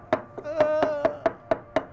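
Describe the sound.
Chili paste pounded in a mortar with a pestle: many evenly spaced, fairly loud thuds at about four strikes per second, each with a short ringing knock, in a steady alone rhythm.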